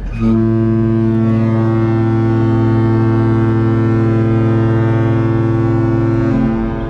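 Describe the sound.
A large cruise ship's foghorn sounds one loud, deep, sustained blast with rich harmonics. It holds steady for about six seconds and then cuts off abruptly.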